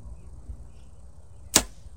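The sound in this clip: An arrow fitted with a broadhead is shot from a bow, a single sharp, brief thwack near the end that stands alone over a low, steady background rumble.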